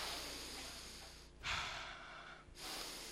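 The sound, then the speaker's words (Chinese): A deep breath during a church sermon: one full, airy breath swells over about a second out of a steady background hiss, then eases back into it. “我们现在深呼吸一口好吗？”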